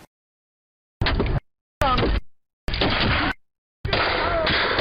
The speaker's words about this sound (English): Here are several shots using lethal bullets.